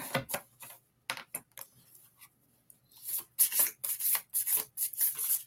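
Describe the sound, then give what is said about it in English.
Cards are drawn from a deck of reading cards with soft papery rubs and slides, a few sparse brushes at first, then a quicker run of louder rasping swipes. “Let me pull a card. Pull some cards for Kavita.”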